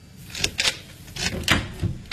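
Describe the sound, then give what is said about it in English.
A door being opened, heard as a quick series of sharp clicks and rattles like a latch being worked. The sounds are fairly faint and come alone. “please open the door”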